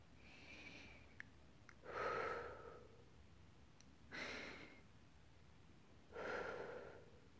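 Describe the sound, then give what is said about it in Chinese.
Deep breathing in and out: three slow, airy breaths spaced about two seconds apart, each a soft rushing swell, quiet overall with faint small clicks between them. “吸气，吐气，再吸气，吐气，”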